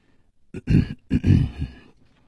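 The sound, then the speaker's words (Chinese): Two soft, throaty coughs from a person clearing their throat in a tense moment. There are two separate low bursts, the second slightly longer, with quiet before and after. “轻轻地咳嗽了两声”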